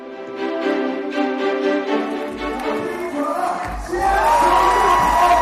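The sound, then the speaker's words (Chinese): Crowd cheering mixed with upbeat music at a U19 three-on-three basketball game at China's 14th National Games in Xi'an, Shaanxi, the cheering swelling louder near the end. “动感的音乐，纵情的欢呼，热闹的氛围，第十四届全运会三人制篮球的赛场成为了一片洋溢着青春和活力的海洋。”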